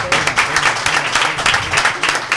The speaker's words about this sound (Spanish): Démosle un aplauso al Mumo.